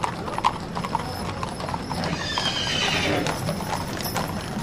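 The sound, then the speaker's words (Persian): Horses' hooves galloping as mounted officers ride in every direction around a night camp, a continuous clatter of many hoof beats with a whinny mixed in, swelling slightly louder toward the end. “ناگهان از صدای سم اسب ها بیدار شدیم دیدیم مامورها سوار اسب شده اند و به هر طرف تاخت و تاز می کنند”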